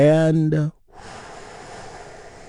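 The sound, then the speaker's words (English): A deep breath drawn in during a guided relaxation exercise: after a brief voiced sound, a soft, airy, steady rush of breathing continues quietly to the end. “Let's take one more deep healing breath together. Here we go.”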